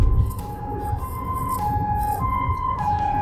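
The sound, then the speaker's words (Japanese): An ambulance siren wails loud and steady, switching back and forth between two pitches several times with no break, over a low rumble of traffic. “ピーポーが入ったな。”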